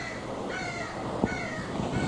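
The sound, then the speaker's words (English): Crows caw outside, a few faint, harsh calls scattered over a steady background hiss with no voices. “My apology if the crows outside are getting on the tape.”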